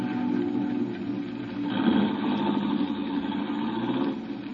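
A taxi engine idles at the Embarcadero waterfront with a steady, low, even rumble that swells slightly midway before settling back.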